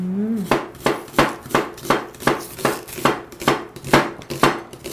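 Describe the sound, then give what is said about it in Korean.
A knife slicing a halved onion during cooking makes a steady run of sharp, regular chopping strikes about every 0.4 seconds. The strikes are loud and even, with no talk over them. “그냥 모양 그대로 썰으시면 돼요. 자, 이렇게 해서 양파를 준비했고요.”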